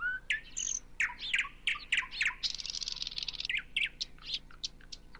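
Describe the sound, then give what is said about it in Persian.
A bird sings from a tree: a lively run of many quick chirps, whistled notes and short trills, bright and high-pitched, heard alone over a quiet background. “معلومه اون صدای یه پرنده است که داره آواز میخونه و به ما میگه که یه پرنده توی اون درخته.”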